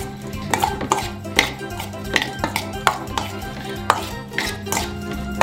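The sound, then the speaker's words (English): Food being mixed and tossed with oregano in a bowl, heard as many irregular clinks, taps and light scrapes of a utensil against the dish. “all I'm gonna do is mix this up, toss it.”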